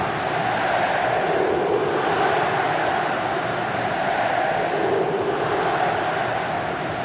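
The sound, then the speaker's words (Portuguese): Santa Cruz football supporters celebrate in the stadium during a match, their voices merging into a steady, dense roar that stays level without breaks. “a festa é total da torcida Coral. 10 minutos e 30, que barulho é esse, que coisa linda. Acompanhe o clima.”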